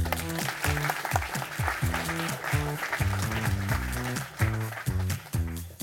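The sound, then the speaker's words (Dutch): Audience applause welcoming a guest onto a Dutch talk show, steady dense clapping blended with an upbeat music track that keeps a bouncing bass line throughout. “Geef haar een warm welkom.”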